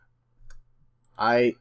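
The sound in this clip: Faint, sparse clicks come from typing on a computer keyboard. A short burst of voice follows.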